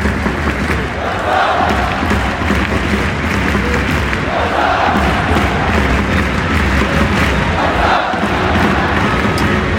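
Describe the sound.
Football crowd roars at Camp Nou stadium ahead of Xavi's first match, a dense, loud wall of voices. Cheering swells rise and fall every few seconds over a constant rumble of chanting fans.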